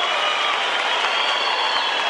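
Audience applause for a sertanejo singing duo at a music show, a thick, continuous roar of clapping with crowd cheering, steady and loud from start to finish.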